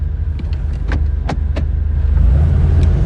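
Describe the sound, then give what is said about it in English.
A car with a manual stick shift gives a low engine rumble throughout, with a few sharp mechanical clicks from the controls, before the engine note grows fuller and louder near the end. “With a hand on the wheel, she reaches for the ignition. She grabs the stick shift.”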